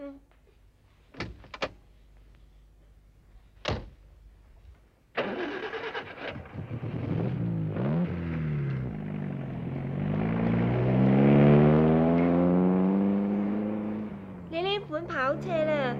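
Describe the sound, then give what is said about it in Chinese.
A two-seat sports car: a few sharp door thuds, then the engine fires up and revs, its deep tone climbing steadily into a strong roar before easing off. “上车吧啦。跑车啊，净系得两个位，你哋要逼下啦。”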